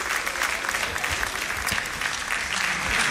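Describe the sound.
Steady applause from a gathering as an inmate is embraced and handed a rosary during a papal visit; dense, even clapping fills the whole clip at a constant loudness, with no pauses or individual claps standing out.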